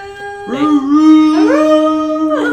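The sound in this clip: Dogs howl in long, sustained, rising wails that overlap one another. New howls join in succession, loud and tonal, with no talk over them.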